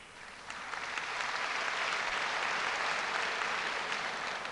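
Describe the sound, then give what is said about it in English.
An audience at a university event applauds a guest, steady crowd clapping that swells within the first second and then holds as a dense, even wash of sound. “And I believe that applause is an expression of the student feeling for your participation in that early forum”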